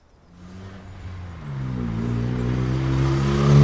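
A car drives and accelerates, its engine hum rising steadily in pitch and growing louder over a few seconds, with no voices over it.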